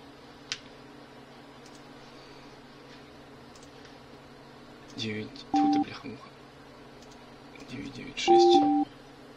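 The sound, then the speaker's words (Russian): A telephone number is dialled as a debt collector places a call: after a quiet stretch of line hiss, a few short keypad tone bursts sound in two clusters, the last one longest. “Так, еще один номер Феофилакта. Косичкина мне прислала. Сейчас посмотрим, что там за животное сидит на том конце провода.”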